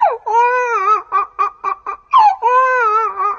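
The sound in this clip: A young child cries loudly, with long, wavering wails around a run of short, choppy sobs and gasps.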